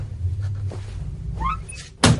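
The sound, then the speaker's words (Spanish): A door forced open with blows, heard as one heavy, loud thud near the end after a stretch of quiet scraping and rustling. “Abre la puerta a golpes, sale y la sierra.”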